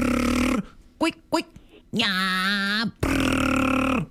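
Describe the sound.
A voice imitates a strange noise from a 2024 Suburban truck that appears while driving: a few short grunting bursts, then two long, loud, buzzy droning tones that hold steady and cut off abruptly.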